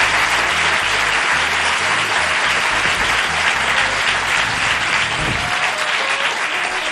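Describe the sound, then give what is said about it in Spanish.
Loud, dense applause from a live audience in Málaga welcoming a guest critic, a steady wash of many hands clapping continuously for the whole stretch, with low tones faintly underneath. “José Manuel Escribano, con un fuerte aplauso de todo el público de Málaga”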